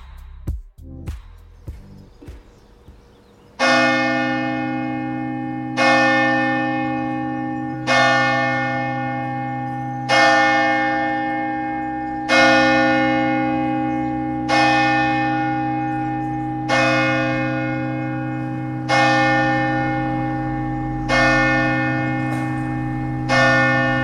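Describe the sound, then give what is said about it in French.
A church bell in the French Basque Country tolls the hour with ten slow, evenly spaced, loud strokes. Each stroke rings out and fades into a sustained hum before the next, after a few short clicks at the start. “L'église, elle sonne deux fois l'heure ou une fois?”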